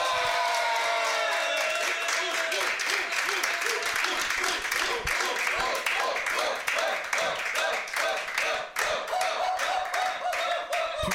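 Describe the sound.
Live audience applauding and cheering at an evening event in Paris's 20th arrondissement: dense clapping from many hands, mixed with voices, sustains for about eleven seconds and thins slightly toward the end.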